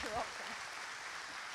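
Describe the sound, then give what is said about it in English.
Applause for a mother at a Mother's Day church service. It is a faint, even wash of clapping throughout, with a voice briefly audible at the start. “Let's give her a round of applause. Happy Mother's Day.”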